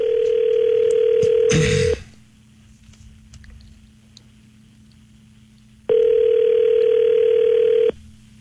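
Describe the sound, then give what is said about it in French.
A telephone dial tone sounds while a call is being placed. It comes as two steady, even-pitched stretches of about two seconds each, separated by a quieter gap, with a brief clatter near the end of the first. “On peut l'appeler? Ouais. OK, on l'appelle.”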